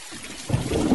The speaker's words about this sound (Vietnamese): Lúc này mưa vẫn chưa tạnh, tiếng sấm ì ầm không dứt.